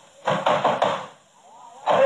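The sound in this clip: Someone bangs loudly on a door with a quick run of heavy thumps, pauses briefly, then pounds again.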